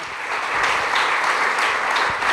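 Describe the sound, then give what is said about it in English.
An audience gives a triathlete a round of applause after an Ironman-distance race result, a dense, steady burst of many hands clapping that swells slightly and holds loud throughout. “How about a round of applause?”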